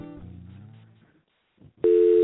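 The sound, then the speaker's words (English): Telephone ringing tone of an outgoing call starts abruptly near the end and holds as a loud, steady tone. Before it comes a quieter stretch of other sound and then a short lull. “It's ringing.”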